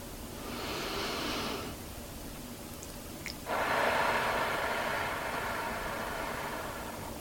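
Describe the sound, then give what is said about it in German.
Deep breathing exercise: a slow airy breath drawn in through the nose, then a longer, louder breathy rush exhaled forcefully through the mouth, alone with no talk. “Beginne damit, dass du tief durch die Nase einatmest, bis hinunter in den Bauch. Atme nun kräftig durch den Mund aus.”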